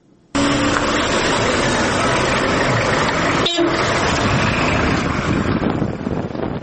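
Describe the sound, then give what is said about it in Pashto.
A Toyota pickup carrying young men drives in Helmand with a loud, steady rumble and wind buffeting. A short tonal toot sounds near the start and another near the middle. “چې په بولان کې د یو موټر په حرکت پیلېږي”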